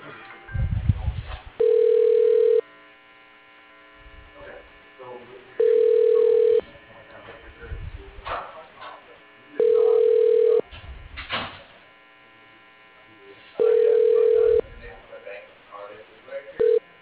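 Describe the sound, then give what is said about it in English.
A telephone line ringing through to voicemail: four long, steady ring tones at even intervals and a fifth cut short, with quiet rustling and low sounds in the gaps. “He's not in his office. I can get you his voicemail.”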